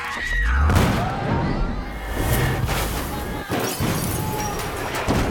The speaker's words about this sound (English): The massive explosion rips through the station, blasting debris into the market.